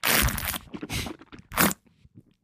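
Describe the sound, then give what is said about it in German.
A sip of coffee comes as a few short, noisy slurping bursts with brief quiet gaps between them. “Ah, das war ein Schluck Kaffee.”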